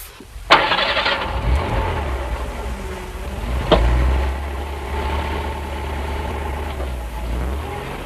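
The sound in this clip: Car engine starting: a short starter crank catches into a rumbling engine that settles into a steady idle, with one sharp click partway through.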